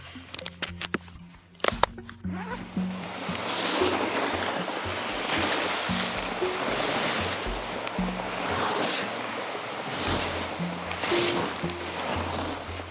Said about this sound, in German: Da macht am Anfang jemand die Jacke zu und dann wird Ski gefahren.